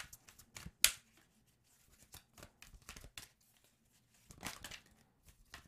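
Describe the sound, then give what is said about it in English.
An archetype card is drawn from a card deck, with soft papery slides and rustles. One sharp snap comes early, then scattered quiet shuffling and a brief second flurry of handling, with no talk. “Let's see. Okay. Let's get an archetype card.”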